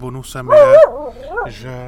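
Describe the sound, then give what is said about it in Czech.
A castle guard dog barks and yips in short, fairly loud harmonic bursts with a wavering whine-like pitch. “Hlídač hlídá. Jo, hradní pes Kuba.”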